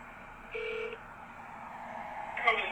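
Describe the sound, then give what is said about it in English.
Touch-tone keypad beep as a phone number is dialed to a political campaign hotline: one steady dual tone lasting under half a second, followed later by a brief brighter burst over low background hiss. “here's one I called the Trump War Room with some pretty damning information about the election day. This is a pretty legit call.”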